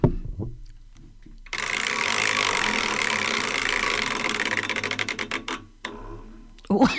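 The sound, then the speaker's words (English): A prize wheel spins with a fast, steady ticking rattle whose clicks gradually spread apart and slow down before stopping. A voice is heard briefly at the start. “Now it's time for another wheel spin. Yes, okay, let's go over to the wheel.”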